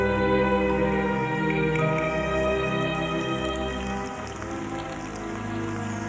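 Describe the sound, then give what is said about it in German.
Warm early-spring rain falls in a steady, continuous wash, with a sustained tonal hum running beneath it and no voices. “Der Regen ist ganz warm”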